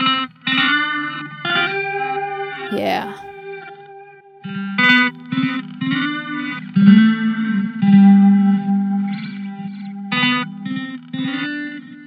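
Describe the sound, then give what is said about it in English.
Electric guitar played through an octave pedal and a JoJo delay pedal, giving a wide, doubled tone. Sustained chords and notes ring out with repeating echoes, and a few sharp note attacks stand out over the steady layered sound. “For an extra dose of vibes, we then added our JoJo delay. And now we have something that sounds like this.”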